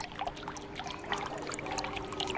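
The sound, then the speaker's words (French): Water trickling and splashing in a small indoor fountain whose pump recirculates the water, a steady, even babble at moderate volume with no breaks or voices. “C'est une fontaine, oui, c'est une fontaine avec un petit système de pompe qui recycle l'eau constamment.”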